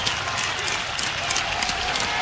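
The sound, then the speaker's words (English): Crowd at an Iowa college baseball game comes alive with two strikes and two outs and the tying run on base, a dense, steady mix of cheers and clapping. “Crowd comes to life here.”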